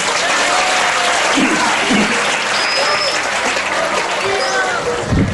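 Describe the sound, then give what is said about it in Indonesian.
Loud audience applause for a religious student called to the front at an Islamic sermon event, a thick, continuous clatter of many hands that holds steady for about five seconds. “Oke, maju. Kasih aplaus dulu.”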